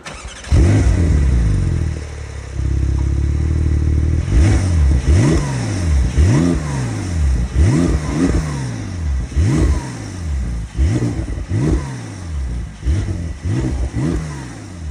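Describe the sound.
A Porsche 911 Turbo S sports car engine fires up and settles, then is revved many times in quick blips. Each rev surges up in pitch and drops back. A faint turbo hiss sits behind the loud engine note.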